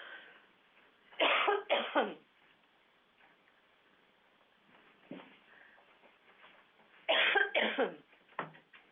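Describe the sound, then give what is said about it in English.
A person with something caught in the throat coughs and clears the throat: two clusters of harsh, loud coughs, one early and one near the end, each of a few rapid bursts, with a fainter cough between and no talk. “You have to excuse me, I have something in my throat.”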